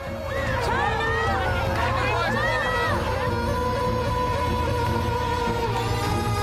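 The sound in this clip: Street ambience of a crowded high street with people and cars: a steady, continuous wash of crowd murmur and traffic noise that holds at an even level throughout.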